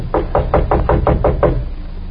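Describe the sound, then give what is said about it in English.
Knocking on a private door off a reception room: a quick, even series of hollow knocks in a steady rhythm, heard alone without talk. “We'll knock once on this private door here and then go in.”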